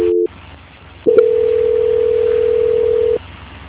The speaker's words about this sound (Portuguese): Só um minutinho e vou transferir novamente, tá bom? Tá bom. Transferência.